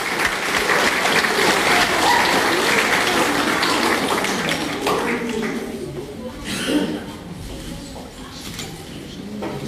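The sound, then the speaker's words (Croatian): Applause at a school chess championship award ceremony, honouring a second-place finish: dense clapping for about six seconds, then thinning and fading, with voices mixed in. “Molim aplauz.”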